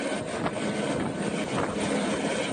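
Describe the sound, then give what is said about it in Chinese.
A helicopter flies loaded with relief supplies such as instant noodles and bottled water, bound for disaster-hit villages. Its engine and rotor make a dense, continuous roar that stays steady throughout with no breaks. “2架满载方便面、矿泉水等生活物资的直升机从常德市石门县全民健康活动中心操场起飞，前往受灾严重村落，紧急运送救灾物资”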